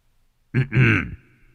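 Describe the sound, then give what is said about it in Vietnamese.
A light cough from a figure in red, two short voiced bursts in quick succession, the second longer, heard alone against silence. “Vị áo đỏ chỉ khẽ ho nhẹ.”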